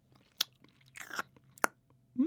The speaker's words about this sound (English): Do you want to taste the cake mix? I'll go on then.